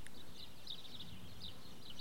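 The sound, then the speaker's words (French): Faint birds chirp in a quiet village church square on a plateau in spring, giving a few short, high chirps spread across the stretch over a soft, hushed background. “les oiseaux, les mouches qui volent.”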